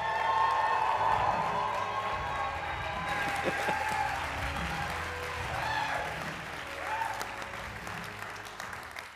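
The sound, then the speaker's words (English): Audience applause at a church youth service welcoming a speaker: dense, continuous hand clapping with some cheering and voices mixed in, holding a fairly even loudness throughout and tapering slightly at the very end. “So, guys, would you put your hands together and welcome Connor Gosnell?”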